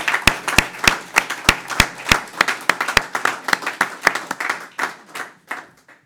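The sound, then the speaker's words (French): Hand claps ring out from a church audience applauding. A few sharp, evenly spaced claps open, then the clapping grows quicker and more scattered before thinning out at the end. “je voudrais vous demander, même s'ils ne sont pas là ce matin, de les acclamer, parce que c'est notre Seigneur Jésus-Christ que nous acclamons à travers eux.”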